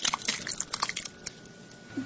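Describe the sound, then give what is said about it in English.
Mountain Shoshone soup cooked over a wood fire is served up with soft liquid splashes and drips and light clinks of a utensil against a pot and dishes, in quick irregular bursts. “I thought we would sample some of this this Mountain Shoshone soup. And we're cooking it over a wood fire. And I'm going to serve everybody up.”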